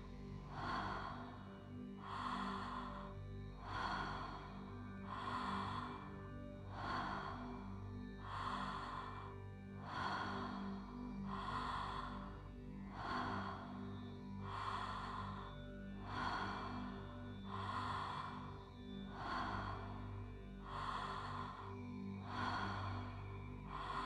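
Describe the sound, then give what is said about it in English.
Calm, deep breathing, slow and even: many soft breaths repeat in a steady rhythm, each a gentle airy rush, over a low, constant background. “I breathe with ease and with grace.”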